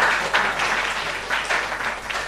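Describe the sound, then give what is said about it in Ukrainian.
Gentle, subdued applause from a group greeting a birthday: soft, scattered clapping with a few brief swells. “Давайте наперед трошки оплесками привітаємо, не сильно.”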